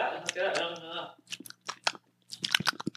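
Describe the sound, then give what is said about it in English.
Chewing on a tangy, seedy food while tasting it: a few moist, crunchy bites and smacks come in bursts after a stretch of talking at the start. “I'm only going to take one. Look, y'all. I'm only going to taste one.”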